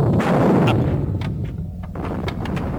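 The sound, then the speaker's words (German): Gunfire shooting at a depot beside domes, heard as a loud, dense, rumbling barrage with a few sharper cracks. The volume dips slightly midway and holds strong to the end. “Daringhaus und ich schießen auf ein Lager neben den Kuppeln. Das wird die Topsieder ablenken. Wir sind soweit. Dann los. Feuer.”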